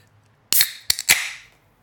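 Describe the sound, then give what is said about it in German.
A fresh can of stout beer being opened: a sharp crack, then a few quick snaps and a fizzing hiss that fades away, heard alone without talk. “diese frische Dose öffnen”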